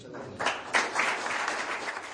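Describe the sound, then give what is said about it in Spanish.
Steady applause from an audience at an award event honouring football coach Ranko Popovic, a dense continuous wash of clapping that swells slightly early on and holds at an even level throughout. “Bueno, pues los aplausos para Ranko Popovic en ese acto de ayer”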